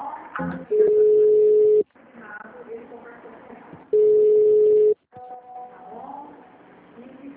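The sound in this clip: A telephone call ringing through to a bank's customer service line: two long, steady ringback tones of about a second each, separated by a pause, with muffled line noise and faint sounds in between.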